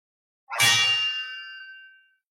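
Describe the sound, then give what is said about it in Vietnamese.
A single ringing metallic clang, like a struck bell or clashing sword blades: a sharp hit followed by a bright, sustained ringing tone that slowly fades over about a second and a half. “Tiếng kim reo rung động lòng người, tiếng keng vang trời”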